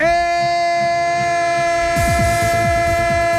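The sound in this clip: A train sound effect opens with a steady, sustained horn chord. About two seconds in, a loud rhythmic clatter of wheels on rails joins it.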